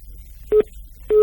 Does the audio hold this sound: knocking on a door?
no